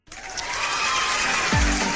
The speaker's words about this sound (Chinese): Perfect， 这个必须得来段这掌声，太好了